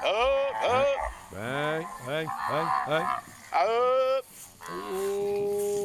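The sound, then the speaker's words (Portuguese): A herd of cattle mooing, with many loud, overlapping, drawn-out moos that bend in pitch one after another, followed by a steadier, longer low call at the end. “Rapaz, bom demais, bom demais. Rapaz, boiada boa. Gostei. Muito bom.”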